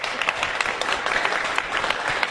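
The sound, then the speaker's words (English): Applause in a semi-standing ovation at a Chamber of Commerce gathering. A crowd claps in a steady, fairly loud patter that continues evenly throughout. “A semi-standing ovation.”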